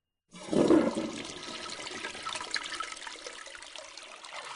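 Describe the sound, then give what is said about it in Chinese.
A toilet flushes after its button is pressed in a children's animal story. A sudden loud rush of water bursts in after a brief silence, then settles into a steady gurgling trickle. “灰猪见按下马桶上的冲水按钮，马桶随即冲起水来，把脏东西给冲走。”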